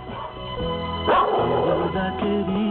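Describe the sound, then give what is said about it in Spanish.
A dog barks in a few sharp, loud bursts over a steady tonal backdrop, with the barks standing out clearly and no voices speaking. “cambio un perro que ladra por alguien llamado Pedro que labra”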